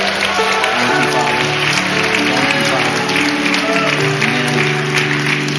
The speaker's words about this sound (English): We'll give him a shout of praise this morning.